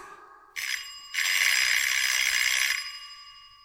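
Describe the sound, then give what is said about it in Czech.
A doorbell gives a brief bright ring, then after a short gap a longer sustained ring that holds loudly for over a second before cutting off and fading, with no voices. “Neboj, že by ten zvonek neslyšela. Nejspíš musíš zvonit pořádně.”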